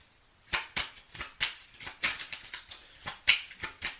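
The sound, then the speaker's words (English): Tarot cards being handled and drawn: many crisp, faint snaps and flicks in an irregular run, each a short papery click with quiet gaps between. “I'm taking some more cards. May I have some more cards, please? Thank you. King of Swords.”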